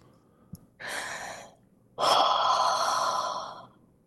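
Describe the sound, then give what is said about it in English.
A deep breath drawn in and then let out: two long, airy rushes with no talk. The second is louder and lasts longer than the first. “do you think we could take a deep breath on air just to kind of kick this off?”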